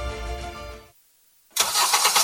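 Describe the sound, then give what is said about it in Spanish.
A car engine starts up with a sudden loud roar after a short silence and keeps running steadily to the end. A tonal passage comes before the silence. “seguimos con motores encendidos”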